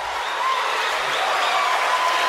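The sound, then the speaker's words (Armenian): Audience applause at a speech by Senator Elizabeth Warren: steady, dense clapping that holds at an even level throughout. “Դահլիճն այս խոսքերին արձագանքեց բուրն ծափահարություններով”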